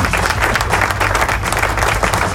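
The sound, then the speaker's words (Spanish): Applause fills a rock radio show's studio: loud, dense clapping from an audience runs steadily through the whole short stretch with no voices. “Aplauso.”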